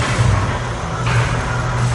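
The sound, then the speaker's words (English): An old-style motor turning an observatory telescope dome: a loud, steady mechanical hum with low grinding rumble that shifts slightly partway through and keeps running throughout. “And through that hole, we can turn the telescope around using this old-style motor. Again, very old school, but have a listen to this.”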